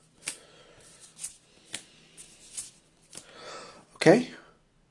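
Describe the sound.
Cards being drawn up to six in a tabletop card game: several short, crisp card snaps and slides at uneven intervals, ending with a louder rustle.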